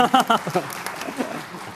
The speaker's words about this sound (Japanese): 拍手どうもありがとうございます、 は い、 まばらの拍手ありがとうございます